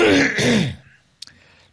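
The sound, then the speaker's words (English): A live radio presenter on air clears his throat with a drawn-out, voiced rasp, followed after a short pause by a brief, sharp catch, with no speech. “Hang on, I just got to have a quick cough.”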